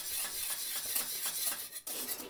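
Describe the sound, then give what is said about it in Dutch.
Spoon scraping a pot while egg-yolk porridge is stirred over very low heat to work out lumps. Repeated rasping strokes come in a steady rhythm with a brief pause near the end, and no talk. “Maar goed, die moet natuurlijk wel goed doorwarmen, want er zitten nu wel eidooiers in. Precies, dus we blijven gewoon goed roeren op een heel laag vuurtje. Een beetje de klontjes eruit krijgen nog.”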